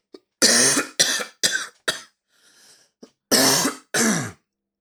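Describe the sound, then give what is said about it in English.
A person clearing their throat in a series of loud, harsh rasping bursts. About four come in quick succession, then a short pause and two more, with no talk. “I should just leave my, you know, throat clearing.”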